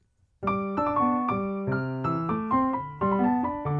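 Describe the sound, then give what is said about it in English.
Piano playing an early concerto passage in C exactly as written in the original manuscript, reaching F natural instead of F sharp so the top note sounds like a blue note; a quick run of many clear, bright notes, played alone. “But in the original manuscript of this piece, that high note didn't exist on Beethoven's piano. He didn't have an F sharp. It only went up to an F natural. So in the original manuscript, as it's written, it sounds like this.”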